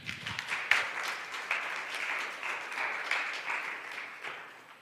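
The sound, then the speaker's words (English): Audience applause at a church service welcoming a youth pastor: steady, fairly soft clapping from many hands, sustained without a break. “Let's give him a warm hand of welcome.”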